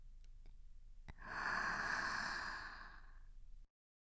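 One long, deep breath drawn in during a guided breathing exercise, a soft, airy rush that swells and then fades out over a couple of seconds, heard alone without speech.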